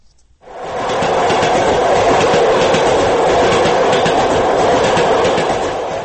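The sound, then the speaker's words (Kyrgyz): A crowded passenger train on the Dushanbe–Moscow route rolls steadily: a loud, continuous rumbling roar with a faint rhythmic clatter of wheels and no voices. “Душанбе Москва каттамындагы поезд. Ичи толо жүргүнчү.”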